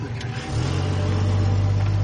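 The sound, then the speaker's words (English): A white four-door car drives along a dirt road through a field of short grass, its low engine drone stepping up in loudness after half a second and then holding a steady, humming note with no talk. “The white four-door car drives down a dirt road in the middle of a large field with short green grass.”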